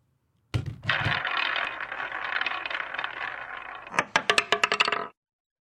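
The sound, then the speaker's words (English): A roulette wheel spins with a little ball rolling around it: a steady whirring rattle for several seconds, then a quick run of sharp, bright clicks as the ball bounces before the sound stops. “Put it on a roulette wheel, spin it, and wherever that little ball lands is what we end up talking about.”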